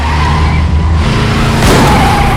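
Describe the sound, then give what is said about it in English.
Tires skid loudly as an SUV swerves during a chase, with engine noise running steadily throughout and a sharper burst of squealing rubber partway through. “Wheelman works the accelerator and clutch. Outside, the man shoots as the SUV swerves once more.”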